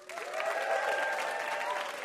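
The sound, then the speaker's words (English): Studio audience applause at a live puzzle game show, welcoming a VIP guest with a steady burst of clapping mixed with a few cheering whoops. “How about a hand for our VIP, Adam Rappaport?”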